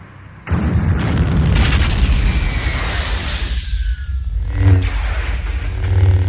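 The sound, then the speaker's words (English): A huge cruiser spaceship explodes after torpedoes strike its engine room. A sudden, loud blast swells into a long, roaring rumble, with further booms bursting through near the end. “The cruiser started to explode.”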